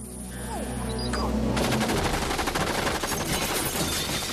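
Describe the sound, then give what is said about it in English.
Machine gun fire from a barrage of bullets, shot by a female robot in a comedy film scene: a rapid, continuous burst of loud shots starts partway through and hammers on to the end. “She fires a barrage of bullets from her breasts, and Austin retreats behind the bar.”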